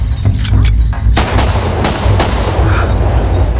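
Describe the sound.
Gunfire in a drama scene where a man is finished off: several loud, sharp bangs cut through a heavy, rumbling wash of noise that stays loud throughout.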